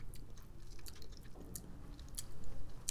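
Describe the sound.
Quiet chewing of cherry-flavoured candy made of flavoured sugar: faint, irregular moist smacks and small crunching clicks from the mouth, with no talking.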